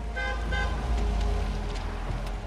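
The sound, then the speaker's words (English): A purple muscle car driving down a street and pulling in to park, a steady low engine rumble with two short horn toots near the start and no talk. “Later, Garrett's purple muscle car zooms down the street and parks.”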